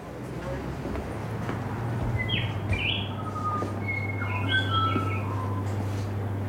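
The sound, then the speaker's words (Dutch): A bird calls at a flower shop entrance in place of a door bell, giving a few short, high chirps and whistles over a steady low hum and background noise. “Je hebt geen belletje als je binnenkomt, maar een vogel.”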